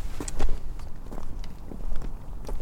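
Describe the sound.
Footsteps of people walking outdoors, a steady run of soft, scuffing steps over a constant bed of background noise, many steps without any clear pause.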